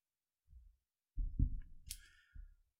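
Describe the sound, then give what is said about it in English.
A cigar being cut: a few soft, low thumps of handling, then one sharp, bright snip partway through, followed by another dull knock. “So anyway, it's a good looking stick. Here we go. I'm going to cut it.”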